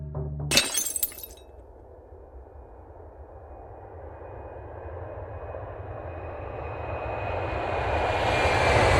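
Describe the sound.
A low-flying airplane's engine roar builds steadily after a brief, sharp crash of breaking glass at the start. The drone swells louder and brighter until the end.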